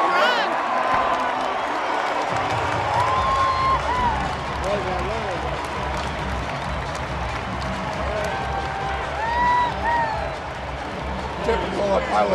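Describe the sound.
A crowd cheers and applauds at a baseball game, greeting the left fielder. The roar is dense and sustained, with scattered shouts and whistles rising over the constant wash of clapping and voices.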